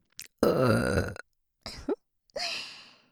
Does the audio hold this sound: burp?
yes